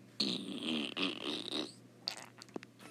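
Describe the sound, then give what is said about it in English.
A person makes a fart sound with the mouth, a vocal imitation: one long, faint, buzzing raspberry lasting over a second and a half with a brief break in the middle, followed by a few soft short clicks. “Can any of you people make this fart sound with your mouth without touching it,”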